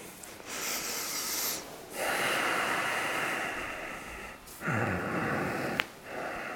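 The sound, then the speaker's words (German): Breathing in and out during a heart-opening breathing exercise, with a few long, airy breaths and gusty exhales heard alone, one short, sharp snort near the end. “Einatmen nach vorne und ausatmen so. Ist wie so ein Freischwimmer.”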